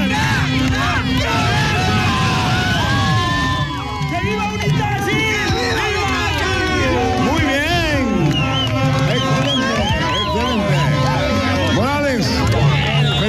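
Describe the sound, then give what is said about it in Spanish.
A crowd celebrating a victory chants a loud battle cry, many overlapping voices shouting in rhythm with whoops and cheers, continuous and dense from start to finish. “Vamos, vamos, ese grito de guerra.”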